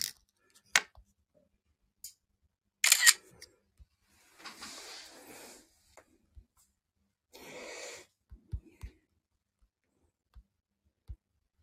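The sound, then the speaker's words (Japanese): Camera shutter clicks while photos are being taken: many short, sharp clicks scattered irregularly, with a few longer soft bursts of hissing noise between them. No speech is heard. “今、写真を撮ってるのでね。”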